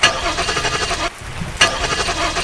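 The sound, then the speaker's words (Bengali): A car engine cranks over and over without catching, in the rain, in two rough, rhythmic, loud bursts of churning noise separated by a brief pause. “কয়েকবার গাড়ি start করার চেষ্টা করে ব্যর্থ হয়ে”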